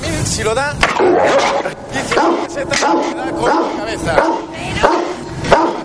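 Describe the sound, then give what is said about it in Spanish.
An angry dog barks furiously in a fur shop, letting out many loud, rapid barks and yips over the whole stretch, mixed with other busy noise. “El perro furioso ladra a Gloria.”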